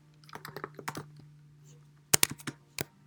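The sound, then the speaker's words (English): Typing on a computer keyboard: a loose run of light key clicks, then a sharper burst of quick strokes and one final tap, all over a steady low hum. “Let me just write back to my professor real fast. Let me just get this out to him real fast.”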